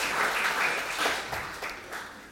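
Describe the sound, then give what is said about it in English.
Audience applause for helpers at a church gathering, many hands clapping in a dense, steady patter that eases slightly near the end. “Should we give them a round of applause?”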